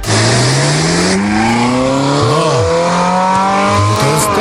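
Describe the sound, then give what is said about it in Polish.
Classic Ferrari petrol engine revving, loud and continuous, its harmonic drone climbing steadily in pitch with a couple of quick throttle blips along the way. “klasyczne Ferrari, to takie klasyczne, brzmi tak.”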